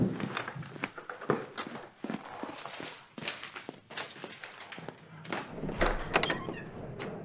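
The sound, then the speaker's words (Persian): Footsteps and the clunks and thumps of a door being opened in a home, a series of sharp knocking transients with uneven spacing, with no talk over them. “برو در رو واکن”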